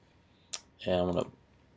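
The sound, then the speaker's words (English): A single sharp mouse click on the trim button of a video editor, one short tick followed a moment later by a person speaking. “So let me click on the trim.”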